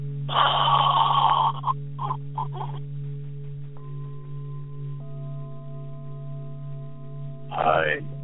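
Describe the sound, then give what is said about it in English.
Forceful breathing in and out with the stomach pulled flat toward the spine: one long rasping breath, a few short sharp bursts, then another strong breath near the end, over a steady low hum. “Making the stomach go as flat as possible to the spine. Once again, breathe in, breathe out high.”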